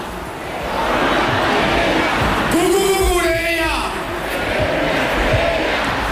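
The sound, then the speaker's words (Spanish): A large crowd at a post-title celebration party chants and sings a footballer's song. The loud, dense roar of massed voices holds throughout and swells with a sustained sung note in the middle. “Cucurella, uno de los fijos en las fiestas post-títulos, pidió ayuda al público para cantar su canción. ¡Cucurella!”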